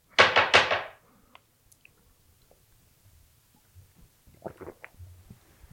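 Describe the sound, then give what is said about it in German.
Loud swallowing while drinking beer, a quick cluster of a few wet gulps in the first second, followed by near silence with faint small clicks and movements. “Ich habe gelesen, dass sich Leute über die sehr lauten Schluckgeräusche beschweren. Ja. Ich glaube, bei mir war eben gerade wieder sehr laut.”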